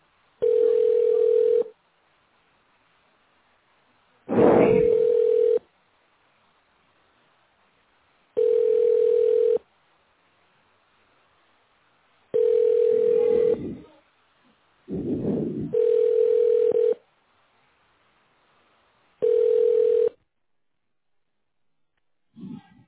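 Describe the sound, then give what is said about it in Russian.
Telephone ringback tone on a call that goes unanswered: six steady, mid-pitched tones, each lasting about a second, separated by silent gaps of a few seconds. “Абонент не берет трубку. Попробуйте перезвонить позднее.”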